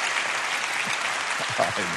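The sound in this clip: Audience applause welcomes a speaker onto the stage at a church service: dense, steady clapping that holds for two seconds, with a few voices mixed into the crowd noise.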